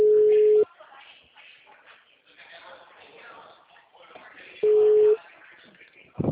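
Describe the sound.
A steady, mid-pitched telephone tone after a dropped call sounds as two flat beeps several seconds apart. Faint talking is heard between them.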